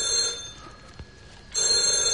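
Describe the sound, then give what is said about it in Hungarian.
A telephone rings during a police interrogation scene in a radio drama: two steady, bright, metallic rings separated by a short pause, with no voices. “A telefont majd én felveszem.”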